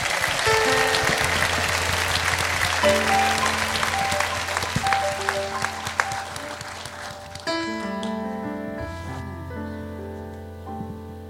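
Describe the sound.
An audience in a cabaret jazz room applauds to welcome a performer, a sustained patter of clapping over piano notes that slowly eases in loudness as the piano continues.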